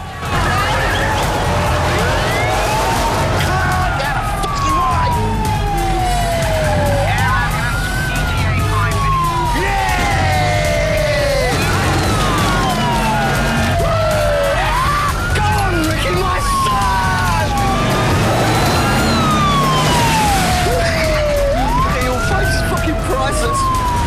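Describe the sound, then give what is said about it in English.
Ambulance siren wailing as the ambulance is driven out of a yard, loud repeated rising and falling sweeps over a low engine rumble, steady in level throughout. “drives the ambulance out of the yard.”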